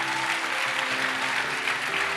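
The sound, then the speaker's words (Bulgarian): An audience applauds during a talk, a short, thick burst of clapping that stays even in loudness throughout. “А, ръкопляскането ви.”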